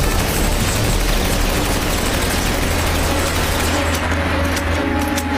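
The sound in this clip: Rapid gunfire rattles in a dense, continuous barrage that stays loud and unbroken for the whole stretch, with a steady low rumble underneath and no voices.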